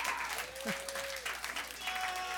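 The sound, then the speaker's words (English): Audience applause during a spoken talk: quick, many-handed clapping at a moderate level, with sustained tones drifting over it. “yeah, go ahead. You can clap.”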